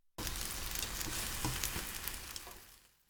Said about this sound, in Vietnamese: Thì tiếp theo, cho phần trứng vào chảo trở lại để làm chín cái mặt còn lại.